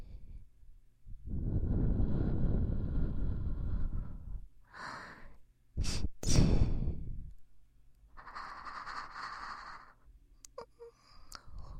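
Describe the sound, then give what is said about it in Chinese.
Heavy breathing in and out. One long, rushing breath is followed by a few shorter, sharper breaths with gasping, snorting edges, then a softer, raspy breath near the end. No words are spoken. “来，跟我学吸气，呼气，”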